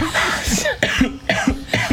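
A coughing fit with choking: a rapid series of harsh, throaty coughs in a quick, uneven rhythm, loud and without talk.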